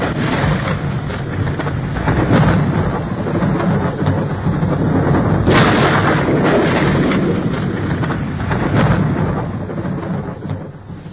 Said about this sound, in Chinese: 倾盆大雨冲刷了几分闷热